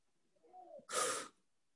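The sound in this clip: A person exhales deeply during a relaxation breathing exercise, a single short rush of breathy air.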